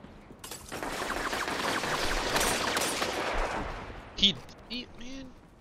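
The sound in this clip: Gunfire in a Destiny 2 Crucible match: a dense, sustained burst of rapid shots fills about three and a half seconds, followed by a few sharper, separate bursts.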